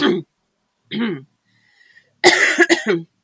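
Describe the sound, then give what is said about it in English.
Someone with asthma that is flaring up coughs: two short, separate coughs, a pause, then a harsher cluster of several rapid coughs. “sorry, I'm going to cough. My asthma's playing up.”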